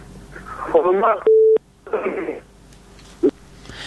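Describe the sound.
A steady electronic telephone tone from a dropped phone call cuts in for about a third of a second between stretches of talk, with a brief, shorter blip later.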